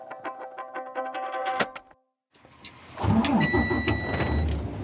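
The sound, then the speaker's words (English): A car pulls into a farm in rural southern Oregon, opening with clicking ticks, then a brief silence, followed by a steady, low rumble of engine and road noise. “So we're pulling into the farm right now.”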